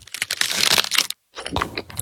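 Crisp, crackly crunching of a mint Aero bubbly chocolate bar being bitten, in two bursts separated by a brief silence.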